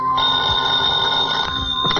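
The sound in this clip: A telephone bell rings continuously, a steady, bright electric trill that holds without a break for the whole stretch, with no voices over it.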